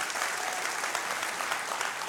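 A church audience applauds during a service, a dense, even wash of clapping that holds at a steady volume from start to finish.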